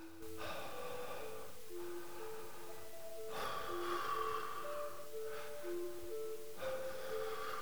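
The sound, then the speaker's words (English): Repetitive, continuous half breaths from a breathing exercise: several short, even breaths in a steady rhythm, moderately quiet and with no talk. “it's more about the kind of repetitive, continuous breathing. So half breath. So you breathe kind of,”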